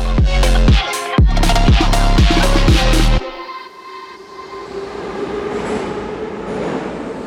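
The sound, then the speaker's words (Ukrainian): A metro train at Derzhprom station clatters loudly, with rhythmic wheel clacks for about three seconds. It then drops to a softer, steady rumble and hiss as the train carries on. “Це станція Держпром.”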